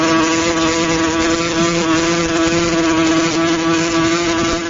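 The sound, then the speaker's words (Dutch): A wasp buzzes in a steady, unbroken drone, a loud, even hum with a constant pitch that holds for the whole stretch with no other sounds around it. “Dit was het geluid van een wesp”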